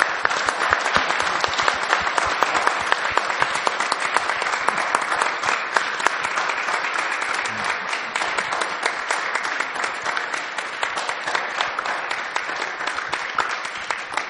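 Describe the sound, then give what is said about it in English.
Sustained audience applause honoring a woman at an evening gathering: many hands clapping in a thick, even stream, with individual sharp claps poking through, holding steady for the whole stretch before thinning slightly at the end. “Can we just honor her with another round of applause?”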